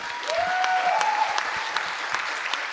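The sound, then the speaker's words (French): An audience applauds poets at a reading with steady, dense clapping at moderate loudness, a brief tonal sound in the first second, then even applause to the end. “Donc j'aimerais bien que vous applaudissiez encore Esther Aberland,”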